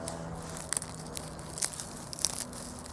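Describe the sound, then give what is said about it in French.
Branches being broken, heard as faint, continuous crackling and crunching with a few sharper snaps standing out. “Il est en train de casser des branches.”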